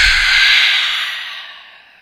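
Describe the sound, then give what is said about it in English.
A single breathy open-mouth exhale during a breathing and posture exercise, a loud airy rush that gradually fades over about two seconds. “Open mouth, exhale.”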